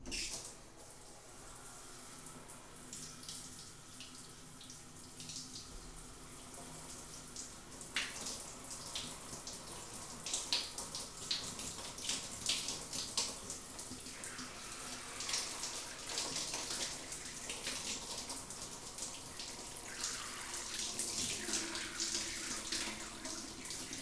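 Tap water runs in a steady hissing stream while something is rinsed, with splashing that grows a little louder and busier partway through. The whole passage stays fairly soft.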